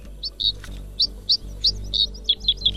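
Songbirds twittering and singing: many short, high chirps and trills in a quick, irregular run over a faint low hum.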